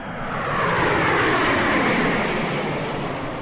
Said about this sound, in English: Attention, please. OAS Flight 144, now leaving on runway 2 for Argentina.